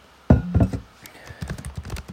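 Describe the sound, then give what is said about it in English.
Typing on a computer keyboard, with irregular clicky key taps and a couple of heavier thunks near the start, moderately loud and without talk. “So, I'm typing because I'm looking something up.”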